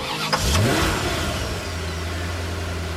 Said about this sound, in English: You'll be riding my 2001 Chevrolet Corvette Z06. It will be a much smoother ride.